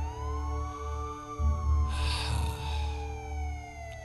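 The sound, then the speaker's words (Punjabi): A police car siren wails in a steady harmonic tone that slowly falls in pitch, over a low rumble, with a brief hissing burst partway through. “Police ਦੀ ਗੱਡੀ ਸੁਰਫੇ ਨੂੰ ਚੁੱਕ ਰਹੀ ਹੈ”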